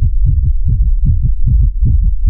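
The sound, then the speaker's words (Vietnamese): Rapid heartbeat sound effect: deep, muffled low thumps pound in quick, steady succession. The beats stay loud and continuous throughout, with no voices. “Lại một trận tiếng tim dồn dập truyền đến”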